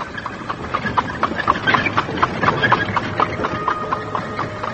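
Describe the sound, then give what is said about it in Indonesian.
Hooves of a horse drawing a carriage clop in a steady, even rhythm, with many sharp, moderately loud hoof strikes over a rumbling rolling background. “Tiba-tiba kereta berhenti.”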